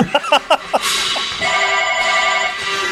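A telephone rings with an incoming call: a few short bursts lead into a bright, steady, sustained ring that carries on to the end.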